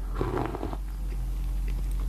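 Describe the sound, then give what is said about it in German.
A quick sip of a foamy, strongly lemony drink: a short, wet slurping burst in the first moments over a low, steady rumble. “nehme nur erstmal schon einen Schluck hier von dem Getränk.”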